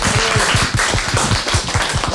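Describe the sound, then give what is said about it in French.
Applause from a group, loud and dense, with quick, evenly paced claps that keep a steady rhythm from start to finish. “On peut applaudir. Bravo.”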